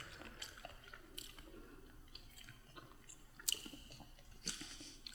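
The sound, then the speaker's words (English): Food taken from a jar is chewed with faint, wet crunching and squishy bites. Irregular crunches come at an uneven pace, with a couple of sharper snaps standing out, and no talking. “The slurping is so gross. The slurping is what really does it for me. Why does everything sound so crunchy to me right now?”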